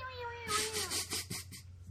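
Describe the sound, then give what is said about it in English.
Cat-like yowling from alien fighter craft pouring out of a mothership before a dogfight: a faint, wavering, falling cry followed by a run of rough, pulsing screeches. “There is like tons of cat noise. Oh, during the fighter where they're all expelling from the mothership or the big ship or whatever.”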